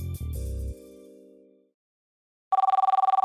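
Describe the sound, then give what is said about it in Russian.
Telephone ringing: after a fading musical chord dies away, a warbling electronic ring starts, a rapid trill of pulses that runs to the end. “В 11 утра звонок Олега Борисовича разбудил Антона.”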